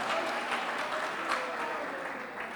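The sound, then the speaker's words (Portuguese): A church audience claps during a worship service, a dense, steady wash of applause that holds at an even level throughout. “mais forte as palmas para Jesus, irmão. Mais forte as palmas para Jesus”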